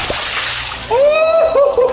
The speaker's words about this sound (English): All right, let's give it a rinse.